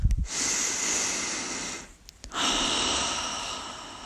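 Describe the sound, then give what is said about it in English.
A deep breath in and out during a guided breathing exercise: a long, hissing inhale followed, after a brief pause, by an equally long, steady exhale. Both are loud and close, with no talk. “Take a deep breath. Let's do it together,”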